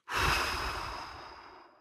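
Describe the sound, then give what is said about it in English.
One slow, audible breath out released after holding the breath during a breathing exercise: a soft airy whoosh that starts strongly and tapers away over almost two seconds, with no talk. “I'll take 4 seconds to breathe in, and then I'll hold it for 7 seconds, and then I'll breathe out making a sound like”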